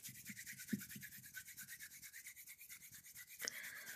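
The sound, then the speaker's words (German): Palms of the hands rubbed quickly together to warm them during a desk eye-relaxation exercise, a fast, even swishing rhythm of many quick strokes, fairly faint and steady throughout. “Dazu reibst du nochmal deine Handflächen aneinander.”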